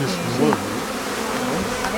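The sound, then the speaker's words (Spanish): Honey bees hum and buzz in an opened hive, its brood comb exposed with larvae and a bee emerging. The steady, dense buzzing drone continues throughout. “Vamos a ver cómo nace una abeja, mira, el nacimiento de una abeja.”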